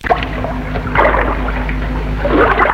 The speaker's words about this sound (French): Au bout d'un moment, elle entend le bruit de l'eau. Se dirige vers le bruit en traversant des broussailles.